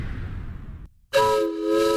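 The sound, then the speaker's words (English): Steam locomotive whistle of the Sumter Valley Railroad, marking 50 years of steam excursions: a fading rumble drops to a brief silence, then a loud, sustained, harmonic whistle blast takes over. “All aboard for a trip back in time. This weekend, Sumter Valley Railroad is throwing the biggest party in the valley to celebrate 50 years of steam excursions.”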